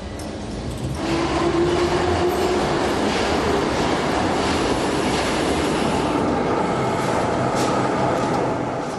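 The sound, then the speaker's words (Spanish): A train's steady rumble and rolling noise fill the stretch without a break, with a faint squealing tone early on and no voices. “Toru Toyoda sube al tren asignado”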